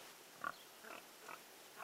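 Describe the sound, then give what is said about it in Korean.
A small black pig in a wooden pen in a village makes a few brief, soft snorting grunts, spaced apart and faint against a low, steady background. “나무로 지은 축사 안을 들여다보니 작고 까만 돼지 한 마리가 뛰어다니고 있다. 아, 이 돼지가 바로 송전마을의 똥돼지구나.”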